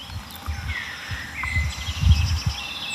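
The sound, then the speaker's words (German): Agitated tits calling and a yellowhammer singing outdoors, faint high chirps and thin whistled phrases over low rustling and rumbling noise. “Die Meisen drumherum sind aufgeregt. Goldammer hinter mir singt.”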